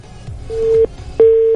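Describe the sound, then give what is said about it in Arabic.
Busy tone sounds after a dropped phone call: two steady mid-pitched beeps separated by a short gap, the second running to the end, over faint low background noise. “راح الاتصال, نرجع نتصل عليكم من جديد.”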